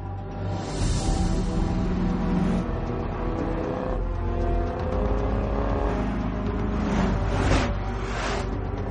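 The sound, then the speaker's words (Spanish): Car engine droning and revving as the vehicle drives toward a hotel, loud and continuous throughout, with a few sharper whooshing surges near the end. “El cazador se cruza con los coches de policía y conduce hacia el hotel.”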